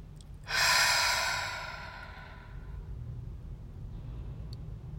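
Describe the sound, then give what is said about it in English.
A single deep grounding breath, airy and loud, swelling quickly and then fading away over about two seconds, leaving a steady low background rumble. “I guess I'm just going to start with a deep grounding breath.”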